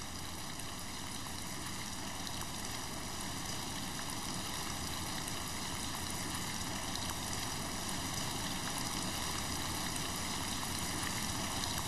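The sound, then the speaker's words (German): Rain falls outside at night as a steady, unbroken hiss that holds an even level throughout, with no voices or other distinct sounds. “Aber dann müssen sie hinaus und draußen ist Regen.”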